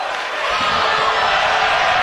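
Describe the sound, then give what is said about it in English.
Crowd cheering at a baseball game as a full-count pitch is fouled back, a steady broad roar of many voices that swells slightly after the first half second and holds at full strength. “Those cheers are not for us.”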